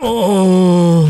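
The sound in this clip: A person gives a loud, sustained moaning groan: one steady voiced tone that dips slightly in pitch near the start and then holds level to the end, with no other sound.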